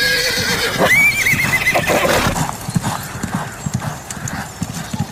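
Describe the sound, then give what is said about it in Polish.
Horses at horse races whinny and clip-clop. A loud, wavering neigh rises early on, then hooves beat in a quick, steady clatter that fades somewhat toward the end. “A co na to wszystko konie?”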